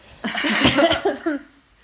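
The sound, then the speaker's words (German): A single short cough, a rough, breathy burst of moderate loudness heard on its own, with a fainter catch of breath at its end. “Erstmal ein Huster.”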